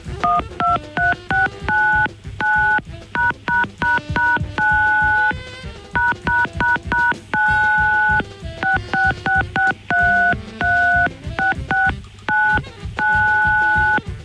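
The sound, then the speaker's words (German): Telephone keypad tones strung into a melody: a quick, rhythmic run of many short electronic beeps at shifting pitches, some notes held longer, with brief gaps between phrases and no talking throughout. “Lustige Telefonmelodien. Heute der Klassiker.”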